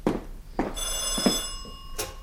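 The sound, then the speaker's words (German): A telephone bell rings with a steady, high metallic tone for about a second, surrounded by a few short louder knocks and rustles. “Ach, dieses Telefon macht mich noch verrückt.”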